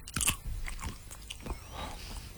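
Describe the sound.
Crunchy bites and wet chewing on a jelly bean flavoured like dead fish. The crackly chomps are quiet and uneven, with a sharper bite near the start followed by softer chewing, and no talk.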